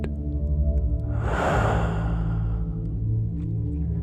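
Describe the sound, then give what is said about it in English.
A slow, deep breath drawn in and let out as a soft airy whoosh that swells and fades over a couple of seconds, above a steady sustained musical drone. “Breathe in, breathe out.”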